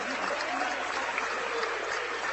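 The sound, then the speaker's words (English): A basketball crowd at an Emporia–Manhattan game rises and applauds as seniors leave the floor. The clapping and crowd noise form a steady, dense wash. “So a fun moment there as the crowd gets up and applauds for them.”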